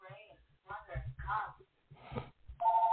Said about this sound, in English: excuse the phone in the background